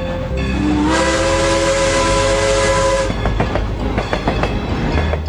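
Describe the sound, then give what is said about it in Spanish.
A train at a small village railway station on Prince Edward Island sounds a long, loud, sustained whistle for about three seconds. It then gives way to a steady rhythmic clatter of wheels and cars rolling over the track. “Su nombre es Anna Shirley y su historia comienza en una pequeña estación de tren en el pueblo de Avonlea, en la isla del Príncipe Eduardo.”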